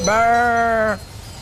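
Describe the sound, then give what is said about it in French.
A person imitates a ewe bleating to call her lamb with one nasal, sustained bleat lasting just under a second. It holds a steady pitch, then cuts off abruptly, heard alone. “c'est quand tu cherches l'agneau, tu peux faire le bruit de la maman comme ça. Comme si t'étais la mère. Tu l'appelles.”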